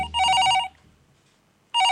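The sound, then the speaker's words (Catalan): A telephone rings with an incoming call: one loud, bright trilling ring, a short pause, then a second ring starting just before the end. “De cop, en Laszlo rep una trucada d'un seu amic.”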